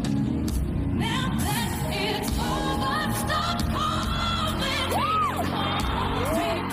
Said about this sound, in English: I love the roiling, rousing response it elicits in the audience where they're kind of like, what the fuck just happened?